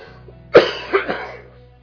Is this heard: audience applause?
no